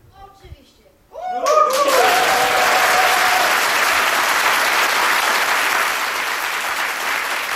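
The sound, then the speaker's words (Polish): Studio audience applause given on cue as a signal before a radio station's birthday concert: after a brief quiet moment with faint voices, loud, dense clapping bursts in and continues evenly to the end. “możesz dać jeszcze raz ten sygnał do oklasków?”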